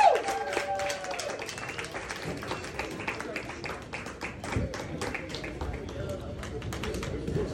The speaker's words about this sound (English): Let's give it up for our stand-up comedians today.